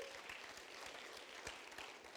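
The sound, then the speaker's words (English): An audience gives a big hand to congratulated people, a soft, steady patter of many clapping hands that holds evenly throughout. “All right, give them all a big hand. Congratulations. Congratulations.”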